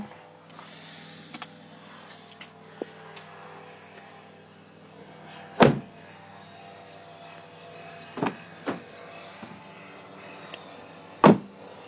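Car doors thud a few times while someone unloads things from a car. The short, sharp knocks are spaced a few seconds apart over a quiet, faintly humming background.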